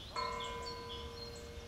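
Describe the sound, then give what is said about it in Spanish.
Church bell struck once, its ringing tone lingering and slowly fading; the whole sound is faint. “Las campanas repicaron”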